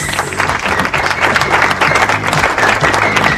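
Audience applause fills the whole stretch with dense, even clapping, steady and fairly loud without a break or a clear peak.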